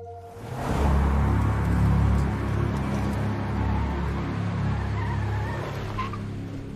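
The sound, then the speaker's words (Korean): A car being driven, heard as a steady low engine rumble with road noise. It swells over the first second or two and then holds at a fairly constant level, with no voices. “우와, 너 운전 진짜 잘한다, 도니.”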